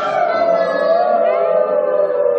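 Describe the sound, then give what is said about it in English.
Wolves howling in a forest, with a loud, sustained, tonal howl that holds a steady pitch and drifts slightly lower toward the end, continuing unbroken throughout. “And heard the wolves howling.”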